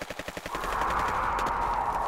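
Gunfire: a rapid burst of several sharp shots that runs straight into a continuous loud roar of firing.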